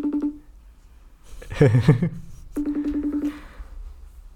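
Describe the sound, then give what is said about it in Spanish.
A telephone call is dialed: a short electronic tone, then voices talking, then a quick run of repeated beeps at an even pitch. “A ver, vamos a llamar. Haz la llamación. Estamos llamando en directo. A tiempo real.”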